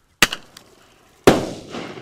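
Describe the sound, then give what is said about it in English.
A bird-banger firecracker fired from a two-barrel 15 mm cap gun explodes: a sharp crack with a short decay, then a much louder bang trailing off in a long rumbling tail. “This firecracker shoots out like 25 feet and explodes in midair. Then he pulls the trigger again. And there they go.”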